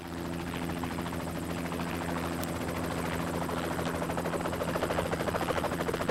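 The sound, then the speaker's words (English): A helicopter flying low over calm water, banking and slowing to land at the water's edge, produces a loud, continuous rotor drone. A steady low throbbing runs throughout, and the pulsing grows slightly stronger toward the end. “a helicopter flies low over an expanse of calm water, banks, slows, and prepares to land at the water's edge”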